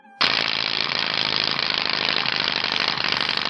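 A rapid, loud clicking rattle, like a spinning casino wheel or a card flapping in bicycle spokes, starts abruptly and runs at a steady, dense pace without a break.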